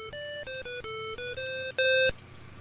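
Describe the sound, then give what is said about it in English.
Chiptune beeps from the Lemonade Stand video game on an Apple II: a quick run of many square-wave notes in a stepping melody, ending on one louder, higher held note. “And nobody's really asking for something like Lemonade Stand, but I'm going to play this audio because it makes me feel like a kid again. So enjoy this for a second. It's an Apple II.”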